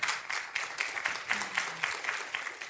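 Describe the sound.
An audience applauds to welcome a speaker at Capital Baptist Church, with many hands clapping in a steady, moderately loud patter that continues evenly throughout.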